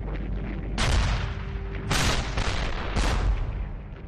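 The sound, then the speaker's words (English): Heavy artillery guns fire an opening barrage along the Western Front ahead of an attack on German lines, with repeated deep booms and blasts overlapping into a continuous, loud, rumbling roar. “The heavy guns of the artillery begin their opening barrage.”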